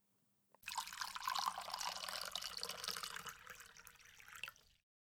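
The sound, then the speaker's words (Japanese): Black tea poured from a teapot into a teacup, a steady splashing, trickling stream that runs for about four seconds and then stops. “このティーポットの中で茶葉がしっかり踊って、ちょうど今頃が飲み頃のはずよ。さあティーカップに紅茶を注ぐわね。”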